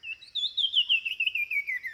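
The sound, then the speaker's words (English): A Sumichrast's wren sings in tropical forest of southern Mexico, giving a rapid run of many high, clear warbled notes that slide gradually lower over about two seconds, fairly faint and alone. “The tropical forests of southern Mexico are filled with songbirds, and this wren is one of the rarest.”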